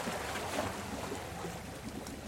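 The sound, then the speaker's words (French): Waterside ambience at the shore around midday during a fishing outing: a steady, soft wash of moving water with faint lapping texture, continuous and even, with no voices. “Il est midi et demi, on est toujours au bord de l'eau là.”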